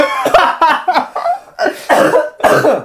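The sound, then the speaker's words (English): Coughing fit after water went down the wrong way: a run of harsh, loud coughs in uneven bursts across three seconds, with brief gaps between them and no talk. “Sorry, the water went down the wrong way. I was trying so hard not to cough because I knew you were going to start the podcast.”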